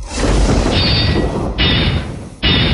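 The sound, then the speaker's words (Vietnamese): Flying swords clash with electric bursts, heard as loud crashing and booming. Three sharp, high-edged impacts cut through a continuous heavy roar. “Từng tiếng va chạm liên tục vang lên, một đường tiếp theo một đường điện quang nổ tung.”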